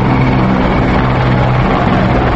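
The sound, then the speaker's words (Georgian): Aerobatic display aircraft fly over a Georgian military parade, producing a loud, steady engine roar. A low droning hum fills the whole stretch without a break. “შემდეგ შოუმფრენები გამოჩნდნენ.”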